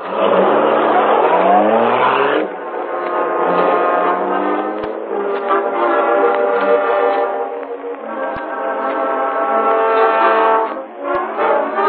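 A car engine revs loudly as the car drives off, a continuous throaty roar whose pitch shifts and breaks at a few points, each time climbing again under load. It stays steady and strong throughout with no talking.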